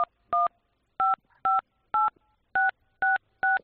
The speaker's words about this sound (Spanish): cuando estás marcando los números de tu contraseña bancaria, el estafador se hace a través de esas pulsaciones con tu clave secreta